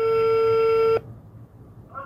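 Ringing on the line as a call is placed to a school principal: a steady, mid-pitched tone sounds for about a second and stops, leaving faint line hiss, and a second tone begins just at the end.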